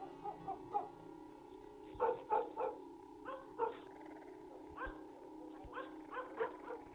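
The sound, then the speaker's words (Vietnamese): Dogs bark in the night in many short, sharp barks that come in irregular bursts over a low, steady hum. No voices are heard. “Mấy tiếng chó sủa vang lên đâu đó, làm cho bóng người kia bất giác giật mình lo lắng.”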